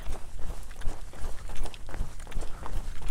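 Footsteps of a person running at an easy, relaxed pace, a steady series of soft thuds that rise and fall in regular loudness swells without pause.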